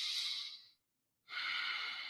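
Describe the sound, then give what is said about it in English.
Breathing in and out through the nose gives a soft airy hiss. One breath fades out, a short silence follows, then a second nasal breath begins and holds steadily. “And so I breathe in and out through my nose and I count one.”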